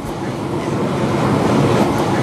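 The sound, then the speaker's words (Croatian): An underground subway train travels with a steady, loud rumbling roar that stays broad and continuous throughout, with faint clatter mixed into the noise. “Ja prvi put u životu u podzemnoj željeznici. I putujemo ispod zemlje”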